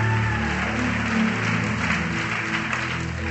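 A church audience claps together in a dense, steady patter of many hands that holds at an even loudness for the whole stretch, with no voice standing out.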